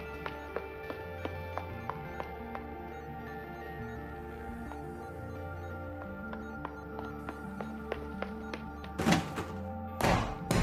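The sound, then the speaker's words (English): A brick banging to force something open: two heavy, loud thuds near the end over a soft background of steady music with a light, regular ticking beat. “If we can get it open. Give it here. No, not like that. Yeah, you're right. I need a brick or something.”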